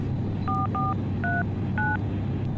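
A telephone number is dialed on a keypad: four short, clear touch-tone beeps at slightly different pitches, spaced unevenly over a constant low rumble.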